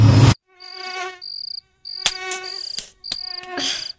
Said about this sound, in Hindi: कितने मच्छर है यहाँ, नींद भी नहीं आ रही।